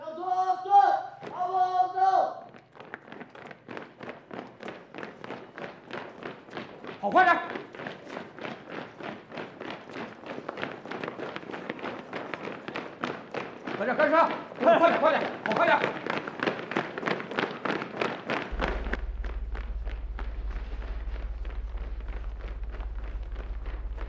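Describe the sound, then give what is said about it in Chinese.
Soldiers running laps around a drill ground make many rapid, evenly spaced footfall thuds in a steady rhythm, after a voice is briefly heard at the start; a low steady hum joins near the end. “列队，围着操场跑，没有5公里，谁也不许停下来。”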